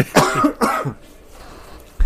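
Two harsh coughs clearing the throat in quick succession, followed by quiet.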